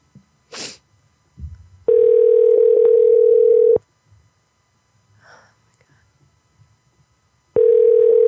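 Telephone dial tone before placing a call: a loud, steady, unbroken hum that holds for about two seconds, cuts off, then returns briefly at the end, with a few faint rustles and breaths in the quiet gap.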